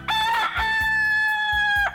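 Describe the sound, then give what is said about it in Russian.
A rooster crows once as a morning wake-up call, a loud, sustained harmonic cry held at a steady pitch for over a second before breaking off abruptly. “Я проснулась от радостного кукареку”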